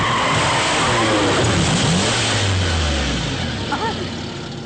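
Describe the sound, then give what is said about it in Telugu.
A car skids to a stop with a loud, continuous roar of tyres and engine. Partway through, a low engine tone drops in pitch as the vehicle slows. “Car ఆగిందేంటి?”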